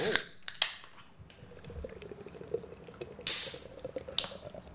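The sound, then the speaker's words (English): Sharp snaps and hissing as a Guinness is cracked open and poured: a few crisp clicks, a soft fizzing stretch, then one loud burst of spraying foam and a final hiss. “Let's crack open a Guinness.”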